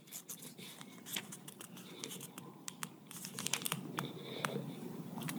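Thin pages of a 1,751-page Bible rustle and crinkle as they are handled, a soft, continuous papery crackle with scattered sharper flicks growing slightly busier toward the end.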